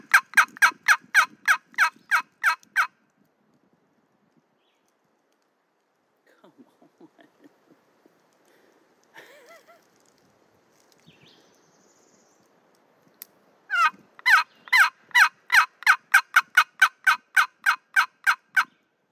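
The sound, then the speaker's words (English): Wild turkey calls come in two runs of loud, rapid, evenly spaced notes, one short and one longer. Faint scattered sounds fill the quiet gap between them. “I ain't heard a gobble in 2 weeks. All right. Can't hear that? Let's see if we can hear this.”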